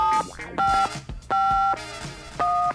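Telephone keypad dialing for a call, with four dual-tone beeps of differing length separated by short gaps and faint clicks, clear and fairly loud.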